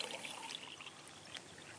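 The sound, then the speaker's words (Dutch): Water pours from a small jug in a faint, steady trickle that runs unbroken for a couple of seconds. “Nou, ik heb een kannetje water om dat te illustreren. Dus de geest van God kan in je zijn, dus dit ben jij eventjes.”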